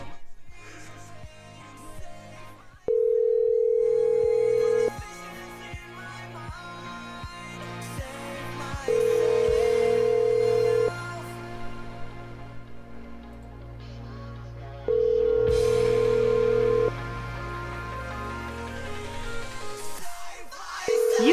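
A telephone ringback tone repeats during a call: three long, steady, even-pitched tones of about two seconds each, separated by longer pauses, and a fourth starts just as it ends. Faint background sounds fill the gaps.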